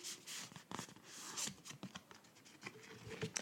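A tarot deck being shuffled by hand: a steady run of soft, papery riffles and scratchy card slides with many quick overlapping flicks, moderately quiet and heard alone without speech.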